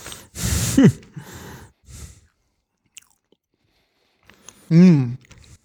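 Someone chews macarons with meringue shells, giving a few soft, crunchy bursts separated by quiet gaps. Brief voiced murmurs come near the start and again loudly near the end.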